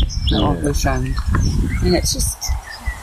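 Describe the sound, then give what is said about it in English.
A bird calling outdoors, with short high chirps scattered over people talking. “What bird is that? That's a biggie. Or is that a heron?”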